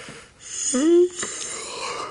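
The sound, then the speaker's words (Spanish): A person yawns once, a breathy intake that swells into a drawn-out voiced tone and then breaks off, set against faint background hiss. “No, si yo hago así, voy a bostezar realmente,”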